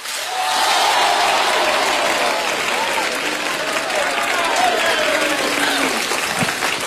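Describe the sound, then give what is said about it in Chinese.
A live audience cheers and applauds at a freestyle rap and kuaiban performance in Beijing. The roar is loud and sustained, with scattered rising and falling shouts over continuous clapping. “现场给我一点欢呼。”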